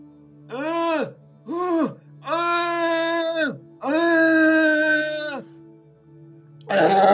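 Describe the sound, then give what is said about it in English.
An adult voice imitates a baby crying: four drawn-out, wavering wails, each harmonic and moderately loud, separated by short pauses and ending in a brief noisy burst. “could you maybe, not very loud, but could you do an impression of you crying as a baby?”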